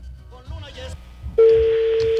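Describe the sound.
A steady telephone line tone comes in abruptly after a stretch of talk and holds at an even, moderately loud pitch to the end as a phone number is called.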